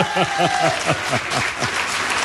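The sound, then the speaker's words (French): Audience applause for invited factory workers from a swimwear maker, a dense steady clatter of many clapping hands at a fairly even loudness across the whole stretch, with a voice showing faintly beneath it. “et vous pouvez les applaudir”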